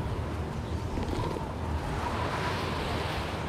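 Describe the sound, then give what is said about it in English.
Wind blows through snow in a snowy mountain landscape, a steady, dense rushing and howling that holds at an even, moderate level throughout. “Guys, we gotta get this kid out of the wind!”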